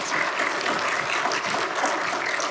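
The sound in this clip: A church audience applauds a guest speaker with dense, even clapping that holds steady throughout, no voices rising above it.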